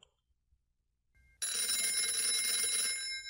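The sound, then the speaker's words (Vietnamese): A mobile phone rings with a bright, steady electronic tone that starts suddenly after near silence, stays loud and even, then cuts off at the end. “Tiếng chuông điện thoại của Quế rung lên hồi.”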